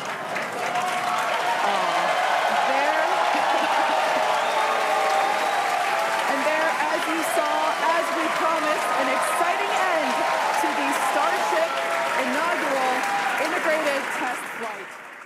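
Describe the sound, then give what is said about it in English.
Onlookers applauding and cheering as SpaceX's Starship rocket explodes during its inaugural launch. A broad, sustained roar of clapping mixed with raised voices holds for about fifteen seconds, then eases off at the end. “which is why when Starship did explode, onlookers on SpaceX's live stream cheered the progress it was able to make.”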